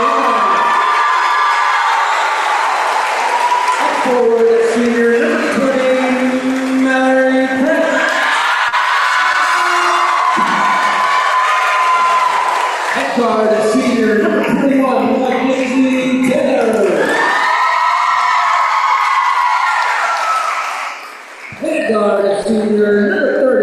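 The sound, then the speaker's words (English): Crowd cheering and whooping at a Lady Owls girls' basketball game as three seniors are introduced. Loud, sustained shouts and yells continue throughout, dip briefly near the end, then rise again. “Okay, I decided to stay quiet while those three seniors were introduced. You guys could feel the energy of the crowd.”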